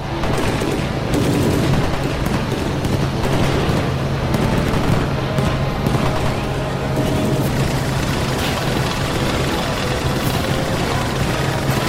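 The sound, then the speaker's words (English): Dense, continuous gunfire from side-hatch turrets, with rapid overlapping shots and bursts sustained loudly throughout over a steady low engine hum. “Shoot him before he passes us up. Go on! Open fire, everyone!”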